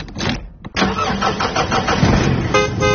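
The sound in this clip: A mobile bar truck's engine cranks and catches, then runs with a rough, pulsing rumble. Near the end, its horn sounds a short, loud, tonal blast over the running engine.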